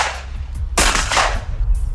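Shotgun fire at a clay pigeon shooting championship: one loud, sharp blast with a rumbling tail stands out among a few fainter shots.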